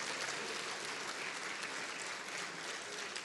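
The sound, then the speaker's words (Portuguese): Congregation applause at a Methodist cathedral church service, a steady wash of clapping from many hands that holds at an even, fairly soft level throughout with no talk over it. “Você pode aplaudir o nome de Jesus, dando glória a Deus.”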